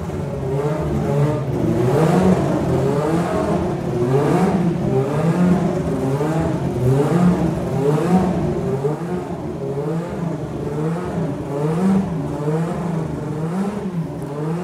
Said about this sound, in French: Mise au point des moteurs. Plage d'utilisation de 9500 à 10 000 tours minute. 9300 à 10 200.